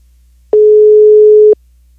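A telephone busy signal on an outgoing call: a single steady, low-pitched tone about one second long, clean and loud, over a faint low background hum.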